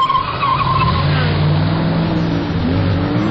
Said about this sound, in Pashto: زه اکثره وخت په کمپیوټر کې دغه د موټر زغلولو ګیم کوم